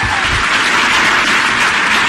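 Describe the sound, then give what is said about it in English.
Loud, sustained applause from an audience at a conservative political speech, a dense, even clatter of many hands clapping from start to finish without voices. “those of you watching at home may wonder why this is being applauded.”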